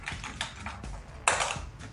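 Keys tap on a computer keyboard as someone types a Google search. The light, irregular clicking stays faint, with a sharper burst of keystrokes partway through.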